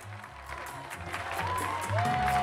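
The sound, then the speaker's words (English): Applause from neighbours welcoming a couple home outside their apartment building in Queens, a steady patter of clapping that swells toward the end, with a brief whistle-like tone and some low crowd murmur underneath. “Back in Queens, Charlie and Muriel's neighbors are applauding them.”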